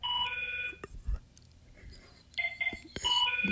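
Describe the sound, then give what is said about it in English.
Electronic telephone ringing during a fundraising pledge drive: a warbling, high-pitched ring, then a quieter stretch with faint, scattered sounds, then a second burst of ringing. “Pick up the phone”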